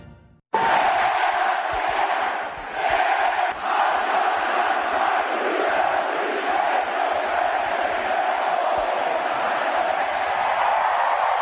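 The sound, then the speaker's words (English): About 20,000 fans roar in Omaha as Ole Miss wins the college baseball national championship. After a brief quiet opening, a loud, sustained wall of cheering bursts in and holds steady. “Just 20,000 of our friends in Omaha who made a little noise as the Ole Miss Rebels have won the national championship of college baseball.”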